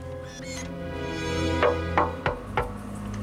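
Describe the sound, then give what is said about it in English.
Four sharp knocks on a steel door with a slot at eye level, struck at a quick, fairly even pace over a sustained tonal background. “He strides towards the building, turns, and approaches a steel door with a slot at eye level. He knocks at the door.”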